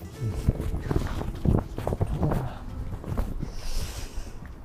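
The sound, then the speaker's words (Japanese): Wind gusts buffet the microphone outdoors while someone walks under a parasol, making a low, uneven rumbling rush that rises and falls throughout. “今もね、ちょっと、今風吹いて気持ちいいですね。”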